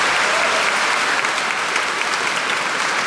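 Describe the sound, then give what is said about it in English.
An audience applauds choirs and an orchestra in a cathedral, a dense, steady wash of clapping that stays loud and even for about three seconds. “can I ask you to please show your appreciation again for our wonderful choirs, orchestra, and musical director, Kevin O'Carroll, for their performances here today.”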